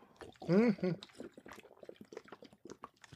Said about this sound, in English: I'm in a big swig of water here and get right going.